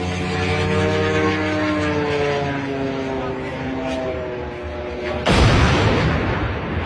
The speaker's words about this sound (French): Voilà, ça, c'est le son d'un drone qui percute une grue de chantier.